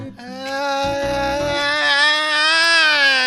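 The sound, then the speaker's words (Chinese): A voice imitating a baby's cry: one sustained, steady-pitched wail that starts abruptly and carries loudly to the end. “哎，不哭不哭了”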